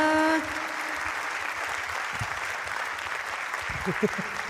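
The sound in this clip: Audience applause at a live show, a thin, fairly faint patter of clapping at steady loudness, following a brief sustained musical tone at the very start, with a few low thumps near the end.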